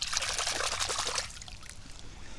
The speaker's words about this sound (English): I'm just going to give it a quick rinse here.